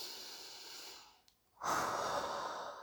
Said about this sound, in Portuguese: é respirar fundo